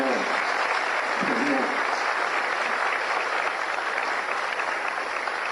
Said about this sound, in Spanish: aquí está el presidente, así que para él pido un gran aplauso